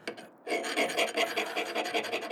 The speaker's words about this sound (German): Die Nadelfeile ritzt Eisen wie Butter. Und vielleicht die Beine vom Schreibtisch?